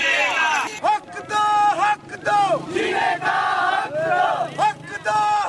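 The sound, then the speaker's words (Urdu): Protesters chant slogans at Edhi Chowk in Karachi during a demonstration by members of the Christian community, with loud voices calling out repeated phrases separated by short pauses over a crowd. “Edhi چوک پر مظاہرین نے tyre جلائے اور نعرے بازی کی۔”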